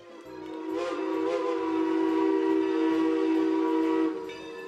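A train whistle sounds from a slow, badly delayed train, one long steady tonal blast of about three seconds, rising in at the start and cutting off cleanly, over a faint low rumble.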